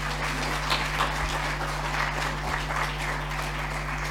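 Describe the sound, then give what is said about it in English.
An audience clapping to thank volunteers at a gathering, producing a continuous, even rush of many hands over a steady low electrical hum. “thanks to Richard and Dennis and Kathy too, can we just give them a big clap?”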